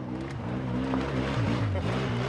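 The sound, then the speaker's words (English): Engine drone of an ATV ridden by a Green Beret speeding across an open plain, a loud, continuous buzzing roar whose pitch wavers slightly as the throttle shifts. “While all this is happening, one of the Green Berets, known as Chief, speeds across an open plain on his ATV.”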